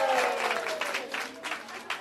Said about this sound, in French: Je vous demande de l'applaudir, il est aussi chez lui.